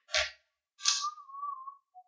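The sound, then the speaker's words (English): A recorder is played softly in short phrases: a breathy puff, a pause, then a second breathy attack that settles into a steady held note, and finally a brief, lower tone on its own. “She's playing with a recorder. Got it. But definitely not a slide whistle.”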